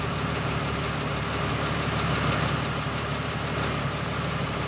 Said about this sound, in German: Eine halbe Stunde später erreichten sie Dalton und der Kastenwagen holperte über eine stockfinstere Staubpiste zur Quecksilbermine